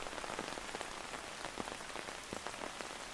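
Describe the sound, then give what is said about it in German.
Steady rain near Stonehenge falls on a surface in a dense, continuous patter. Many small drop hits are scattered throughout, and no voices are present. “Denken Sie daran, dass Sie Ihre Schirme mitnehmen, da der Regen nicht nachlassen wird.”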